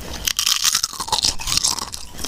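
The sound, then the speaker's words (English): Loud crunching and chewing of a wrap snack, with crisp, crackling bites packed densely throughout and no talk. “I'll eat the wrap snacks.”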